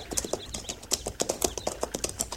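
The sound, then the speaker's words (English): Hoofbeats of horses riding past along a tree line: a steady, rapid clip-clop of many hoof strikes that continues evenly throughout. “They're riding right along the tree line. Going on south.”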